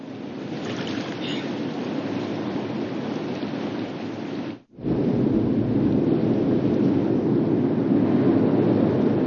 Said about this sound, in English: Night has fallen in the thundering gorge.